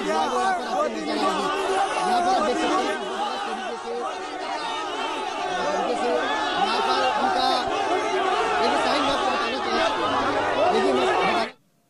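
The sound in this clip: A noisy crowd chatters at a Congress party protest near the Prime Minister's residence and Jantar Mantar, many overlapping voices forming a loud, steady hubbub that runs for about eleven seconds, then cuts off abruptly.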